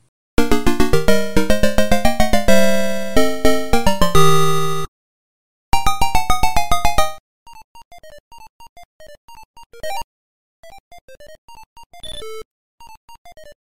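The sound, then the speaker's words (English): Electronic bleeps and jingles from the 1982 Checkman arcade video game on Galaxian hardware: a fast, rapidly pulsing tune, a brief gap and a short repeat, then sparse scattered blips and higher beeps. “It is Checkman.”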